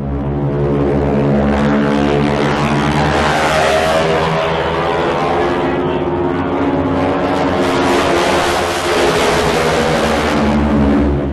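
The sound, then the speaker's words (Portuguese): A T-6 propeller aircraft's engine roars in a dive, its propeller tips going supersonic: a loud, steady, buzzing drone with dense harmonics, sustained without a break. “Aí depois pode colocar na edição aí o barulho do motor do T-6 no mergulho.”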